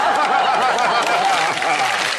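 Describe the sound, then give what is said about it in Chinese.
Audience applause, a dense, continuous clatter of many clapping hands that stays loud and even throughout, with faint voices mixed in. “还鼓掌呢？”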